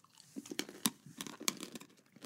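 Crunchy chewing of soy-flavoured peanuts: many sharp, crisp bites and crackles in an irregular rhythm, moderately loud, with no talking.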